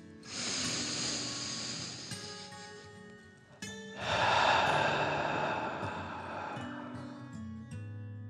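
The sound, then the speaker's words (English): A deep breath in and then a long breath out during a guided relaxation exercise: two broad, airy rushes of breath over soft, sustained background music. “Relax and take a deep dragon breath in and out.”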